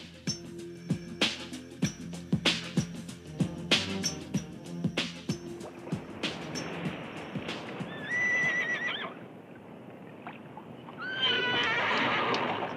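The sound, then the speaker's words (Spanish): Horses clip-clop and neigh on the island of Cuba in the era of the Spanish conquest. Steady, crisp hoofbeats come first, then loud, shrill whinnies rise and waver near the end. There is no talk. “¡Tengan cuidado con esos caballos!”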